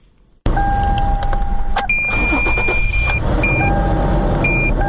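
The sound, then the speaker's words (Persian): A car being started in Herat: after a brief quiet moment, an engine catches abruptly and settles into a steady running rumble, with several electronic beeps and tones sounding over it. “در حال روشن کردن موترش است.”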